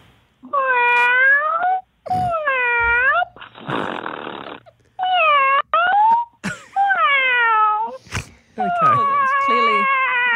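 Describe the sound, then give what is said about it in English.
A caller's voice imitates a cat in a call-in noise-guessing contest: a run of drawn-out, wavering meows with a breathy, hiss-like stretch partway through. The meows are loud and heard alone, with no talk over them. “Clearly a pussycat. That's a pussycat.”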